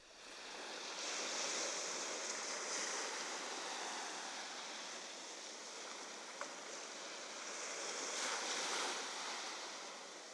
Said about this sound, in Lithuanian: Devintoji banga. Audros pasirodymas.